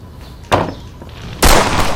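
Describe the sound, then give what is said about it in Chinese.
Two sharp, loud gunshot blasts ring out in a wartime battle scene, about a second apart, the second stronger and with a longer ringing tail. “别开枪了，敌人都跑了，节约子弹。”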